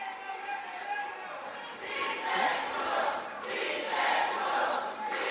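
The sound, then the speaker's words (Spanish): An audience crowd reacts at an official ceremony accrediting a president-elect in Peru, shouting and cheering in a continuous roar that swells twice, with many voices mixed together. “Continúan las reacciones del público asistente.”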